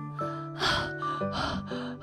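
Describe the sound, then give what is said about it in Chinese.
Heavy panting from a father worn out after running, voiced by a performer: a few loud, breathy gasping bursts in a quick uneven rhythm over a soft musical background. “穿过街心花园，爸爸喘着粗气，”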